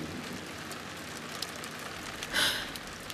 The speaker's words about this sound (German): Der Regen, der erst nachgelassen hatte, plätterte plötzlich aufs Dach wie nach einem Donnerschlag.